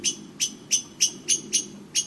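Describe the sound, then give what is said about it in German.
A blackbird gives a warning call: seven sharp, high-pitched chinks repeated at a steady, even rhythm over a faint, low background hum. “Und die Warnrufe der Amseln werden auch von allen anderen Vogelarten verstanden.”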